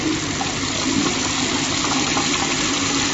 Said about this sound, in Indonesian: Keran air di bathtub menyala. Dan air mulai mengisi bathtub.